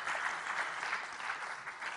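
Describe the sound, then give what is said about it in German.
An audience gives its assistants a round of applause, a faint but steady patter of many hands clapping that swells and dips slightly over its short length. “Dankeschön, die Assistenten kriegen einen Applaus. Dankeschön, dass ihr geholfen habt.”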